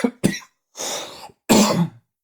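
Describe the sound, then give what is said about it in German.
Coughing from a person: two sharp quick coughs followed by two longer, rasping, chesty coughs separated by short pauses, loud and alone without talk. “Vielleicht solltest du mal was nehmen bei dem Husten.”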